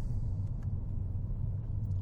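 Steady, low engine and road rumble from inside a car as it drives through corners on a road. The droning hum is even and continuous throughout, with no voices.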